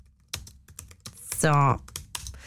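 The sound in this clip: Keys clatter on a computer keyboard while text is copied into a document, an uneven run of quick clicks with a brief voiced sound in the middle.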